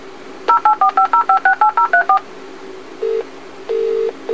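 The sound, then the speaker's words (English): A telecare alarm telephone dials for assistance with twelve rapid, evenly spaced touch-tone beeps. After a brief pause, two longer ringing tones follow on the line. “Do not worry. Your alarm telephone is dialing for assistance.”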